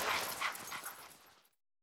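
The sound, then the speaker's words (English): Puppies eating a bone give faint, busy whimpers and small yips over soft chewing noise, with many short sounds running together before it falls silent. “Oh, look at the puppies. They're eating a bone.”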